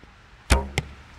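An arrow striking an archery target and landing in the white ring just outside the target face: two sharp, percussive thuds, the first louder with a brief ringing tail, the second shorter and softer.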